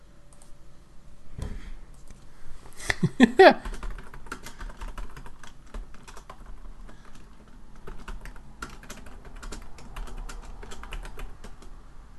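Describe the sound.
Typing on a computer keyboard: many quick, light key clicks run throughout at a low level, briefly denser and louder near the start, while people talk.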